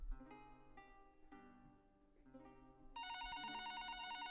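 A telephone rings over faint, quiet tones in the background. Near the end the ring starts suddenly and keeps going as a loud, steady, pulsing trill.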